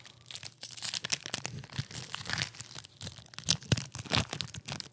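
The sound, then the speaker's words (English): Packaging of a Pokémon trading card pack being torn open: dense, continuous crinkling and ripping with many sharp crackles throughout, with no voices. “He tore open the packaging.”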